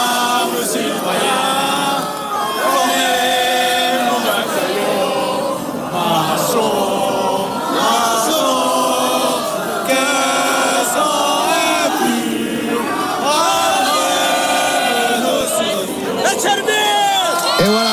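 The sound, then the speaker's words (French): A huge crowd gathered at Place de la Concorde in Paris to welcome the French national team sings La Marseillaise together, many voices merging into a loud, continuous, swelling chorus with scattered cheers. “La Marseillaise derrière moi. Eh oui, la Marseillaise qui commence à être entonnée. Bon, on peut l'écouter.”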